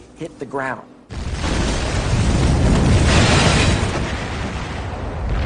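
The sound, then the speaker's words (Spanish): An asteroid impact explosion bursts in as a sudden, loud, broad roar after a brief voice, then holds as a dense, rumbling wall of noise to the end. “Ese fuego se apagaría casi en cuanto la roca impactara contra el suelo.”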